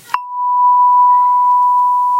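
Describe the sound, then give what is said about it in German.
A phone notification tone for an incoming WhatsApp message: a short click, then one steady, pure beep held at an even, fairly loud level for about two seconds. “Oh, eine WhatsApp von Johanna aus dem Flieger.”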